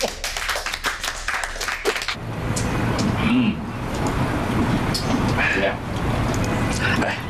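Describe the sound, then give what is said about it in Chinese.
A small group claps to welcome visiting officials at a stone dealer's stall. A brisk patter of clapping fills the first two seconds, then gives way to talking over steady background noise. “来来，鼓掌鼓掌。”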